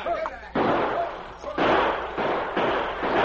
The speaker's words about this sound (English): 5 minutes, Kendall and his men blasted away. But suddenly they heard shots behind them.